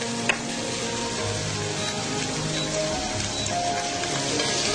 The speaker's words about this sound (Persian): هم بزنید که کاملا تغییر رنگ بده. تو این مرحله به سلیقتونه، میتونید شما بهش زردچوبه اضافه کنی، میتونید نکنی، که من حتما اضافه میکنم. یه مقدار زردچوبه بهش میزنم.